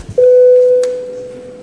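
An electronic bell in a parliament chamber signals the start of a vote. It is a single loud, steady mid-pitched tone that rings out and then slowly fades, with a short click partway through.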